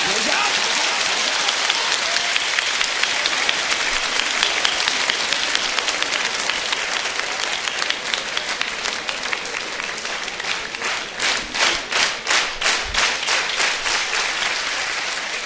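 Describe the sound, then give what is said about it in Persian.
An audience at a religious gathering applauds in a dense, loud roar that settles into steady rhythmic clapping, with regular even beats toward the end. “یک کف مرتب بزن بزن بزن بزن بزن بزن”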